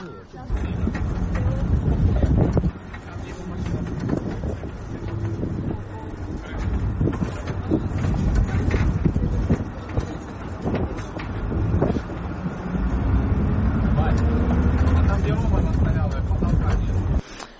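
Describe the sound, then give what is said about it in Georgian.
A bus with no window glass drives along, evacuating people from the Azovstal plant grounds in Ukraine; a steady, loud roar of engine rumble and rushing wind runs throughout, with indistinct voices mixed into the noise. “ეს იყო ავტობუსი შუშების გარეშე, ავტობუსი, რომლითაც გამოიყვანეს ადამიანები აზოვსტალის ტერიტორიიდან.”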